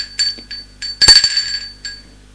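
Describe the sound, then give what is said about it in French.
A bell rings at a gate in a few bright, high metallic chimes. The loudest strike comes near the middle with a low thump beneath it, and a softer chime follows near the end. “On sonne au portail.”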